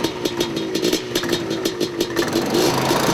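Engine of a 2007 Baja off-road race vehicle running in a shop, a steady mid-pitched drone with a rapid, rhythmic pulsing beat that holds even throughout and swells slightly louder near the end.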